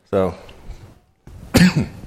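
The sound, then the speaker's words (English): A person coughs in a couple of short, harsh bursts separated by a quiet gap, with a throaty, rough texture. “I'm sorry for coughing, but that's just me, okay?”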